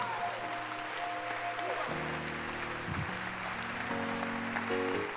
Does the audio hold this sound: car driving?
no

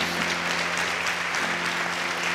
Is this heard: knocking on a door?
no

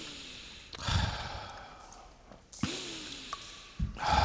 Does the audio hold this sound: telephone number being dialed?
no

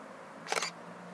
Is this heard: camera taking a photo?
yes

